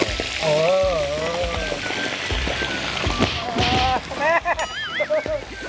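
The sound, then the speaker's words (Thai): Fish sizzles as it fries in a salted pan over high heat, a steady crackling spatter like rain. People talk over the frying throughout. “โรยเกลือลงไป เวลาทอดปลาจะได้ไม่ติดก้นกระทะ ครับนี ่เราก็ใส่ปลาลงไปเลย”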